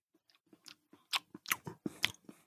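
A person chewing food they are tasting, with crisp crunching bites and moist mouth sounds in an irregular rhythm, faint at first and then growing louder.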